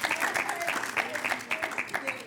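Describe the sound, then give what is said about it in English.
A small group clapping in a fairly quick, regular rhythm after being asked to applaud someone, with talking mixed in, the claps moderately loud and evenly spaced throughout. “Can we give Sally a round of applause?”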